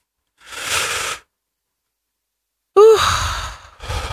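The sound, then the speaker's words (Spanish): A deep breath drawn in during a guided breathing exercise, airy and moderately loud, followed after a silent pause by another louder breath with a brief voiced edge, and more breathing at the end. “Vamos a respirar. Sí. Respira profundo.”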